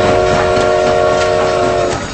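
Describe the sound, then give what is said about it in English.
A maintenance locomotive approaches at dawn along a track blocked by debris. It holds a loud chord on its horn over a rumbling rail noise, and the horn cuts off just before the end. “A maintenance locomotive approaches on the other side of the debris.”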